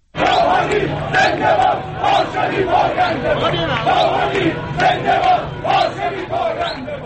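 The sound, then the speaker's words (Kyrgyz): A dense street crowd of Hassan Rouhani's supporters in Tehran celebrating his presidential election win, many voices shouting and chanting together in a loud, continuous roar with rhythmic surges throughout. “Ирандагы президенттик шайлоодо жеңишке жеткен Хасан руханинин миңдеген тарапкерлери Тегерандын көчөлөрүнө чыгып, анын утушун белгилеп жатышат.”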